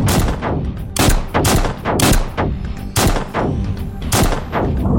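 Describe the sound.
Rapid gunfire from guns shot at an open doorway: many loud, sharp shots in quick, irregular bursts with no pauses or talk.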